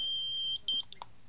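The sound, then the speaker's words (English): Telephone call-waiting beep: a high, steady electronic tone holds for about half a second, then a shorter beep follows after a brief gap. Both are fairly loud and come without any talk. “I'm being beeped.”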